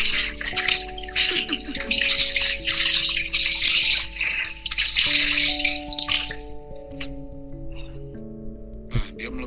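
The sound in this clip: Running water from hand-washing clothes, a hissy rushing in uneven bursts for about six seconds before dropping to a quieter trickle, with steady tones beneath.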